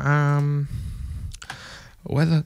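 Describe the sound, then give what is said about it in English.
A computer keyboard is handled and clicked at a radio station desk, giving a loose cluster of light rattling clicks and knocks, set between a voice at the start and again at the end. “hold up, I have to get the keyboard.”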